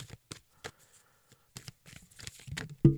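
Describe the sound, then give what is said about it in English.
Oracle cards are shuffled in a quiet run of soft papery riffles and taps in short irregular bursts, ending in a louder, fuller burst. “Oh, card popped out. Oh, it's two cards.”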